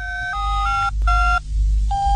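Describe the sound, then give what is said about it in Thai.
Electronic telephone ring tones sound on a call to the city waterworks: short bursts of paired tones change pitch in steps, pause briefly, then start again over a low steady hum. “ฉันจะโทรไปที่การประปานครกบ”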